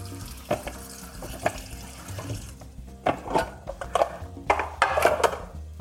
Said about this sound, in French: Donc je les rince à l'eau. Je vais les égoutter sommairement.